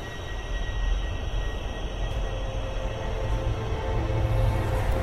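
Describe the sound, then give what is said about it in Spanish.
A subway train car stopping at a platform, heard as a steady, dense rumbling roar with faint thin high whines running through it, level throughout the five seconds. “El vagón se detuvo en el andén y escapé, tal como lo había hecho aquel hombre.”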